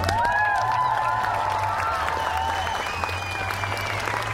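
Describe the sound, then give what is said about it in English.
Loud, sustained applause from an audience welcoming a guest, the owner of the Continental Bathhouse, a gay sauna in New York. A few cheers rise over the steady clapping. “Please put your hands together with me and welcome Steve Ostro.”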